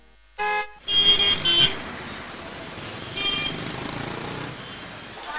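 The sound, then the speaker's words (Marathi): Noisy road traffic with cars and horns: a few short horn honks at the start ring out over a steady rumbling wash of vehicle noise that continues underneath. “गाड्या मोटारींच्या या गोंगाटात आज प्रत्येकच व्यक्ती अस्वस्थ आहे.”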